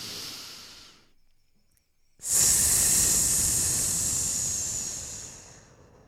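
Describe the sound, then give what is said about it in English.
A voice makes a long hissing S sound on an out-breath during a breathing exercise. A fainter breath comes first, then a short silence, then a loud, steady hiss lasting several seconds that slowly fades. “Breathe in through your nose. And make the S sound when you breathe out.”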